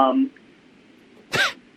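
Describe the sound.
A single short, harsh cough burst follows a brief moment of voice, with quiet in between.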